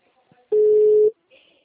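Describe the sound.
A single steady ringback tone sounds on an outgoing phone call while waiting for the other person to answer. It lasts about half a second, with faint line noise before and after it.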